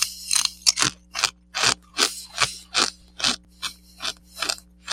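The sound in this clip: Vegetable chips, including sweet potato and parsnip slices, crunch loudly as someone eats them, with many crisp bites in a steady rhythm about every half second.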